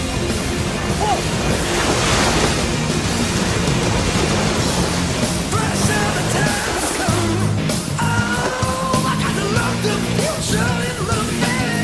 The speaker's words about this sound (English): You have to make the wave all the way to the island.